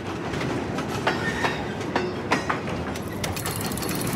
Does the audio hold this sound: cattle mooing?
no